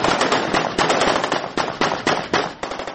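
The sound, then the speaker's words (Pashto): Afghan soldiers fire celebratory gunshots into the air in a district bazaar after retaking the district centre, many sharp cracks in rapid, overlapping bursts, loud and dense, with no voices. “د افغان پوز په سلګونو سرتیرو د ناوی ولسوالۍ په بازار کې د وسلوالو څخه د دې ولسوالۍ د مرکز د بیرته نیولو په خاطر جشن نیولی او هوایی ډزې کړې.”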